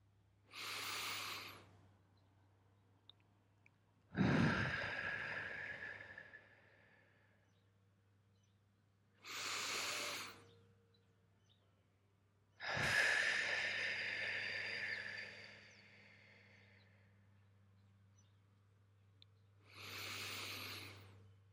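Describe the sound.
Deep breathing during a breathing meditation: five long, wind-like breaths with no talk, alternating shorter and longer strokes, each separated by a few seconds of near silence over a faint steady low hum.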